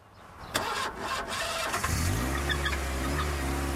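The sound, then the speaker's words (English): An old grey car's engine starting as it prepares to reverse out of a driveway: a few rough cranking bursts, then the engine catches and settles into a steady, low, humming idle. “She reverses out of the drive and heads off down the road.”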